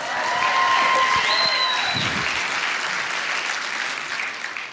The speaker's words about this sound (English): Give it up for Zay.